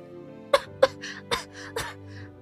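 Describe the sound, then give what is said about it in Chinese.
Several sharp coughs in quick succession from a person who has just gulped down overly salty soup. Each burst is abrupt and loud, with short gaps between them. “然后被齁的咳嗽了半天”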